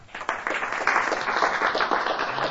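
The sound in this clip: Brief burst of audience applause at a political speech: dense, even clapping that stays steady for its short length.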